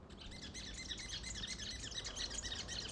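Birds sing at dawn in the mountains of Tepoztlán, a dense chorus of overlapping high chirps and tweets running continuously over a low steady rumble.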